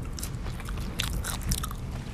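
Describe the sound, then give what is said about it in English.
Biting into a Wendy's french fry dipped in ketchup, followed by chewing: faint, soft, crunchy mouth sounds, with a few slightly louder crunches near the middle. No one talks. “We'll take a fry. All right, yep. Very good. Sounds nice. I like to get it in that ketchup.”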